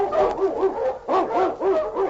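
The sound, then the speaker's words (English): A husky sled dog, an Eskimo lead dog, barks: a quick run of several sharp, yelping barks in an uneven rhythm, fairly loud and heard alone. “On King! On your Husky!”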